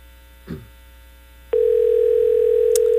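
A telephone line tone plays while a call is being placed. A soft rustle comes first, then a click starts a steady, unbroken single-pitch tone that runs to the end, with a faint tick near the close.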